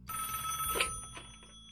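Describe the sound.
A telephone bell rings to signal a listener calling in to a radio show, heard as a short, faint ring with steady tonal lines and one brighter burst near the middle, alone without talk.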